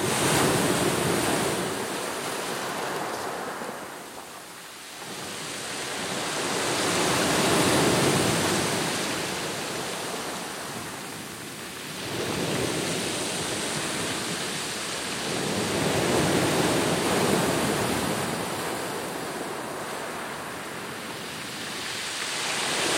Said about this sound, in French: On va prendre un exemple avec un son, le son de la mer.